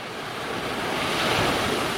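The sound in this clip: Waves wash onto a sandy beach in a steady, dense hiss of surf, swelling slightly toward the middle, with a gusty wind rush blended in and no voices.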